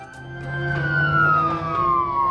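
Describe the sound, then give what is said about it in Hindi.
An ambulance siren wails as one loud, sustained tone that slowly falls in pitch, over a low steady rumble. “Ambulance आ गई थी।”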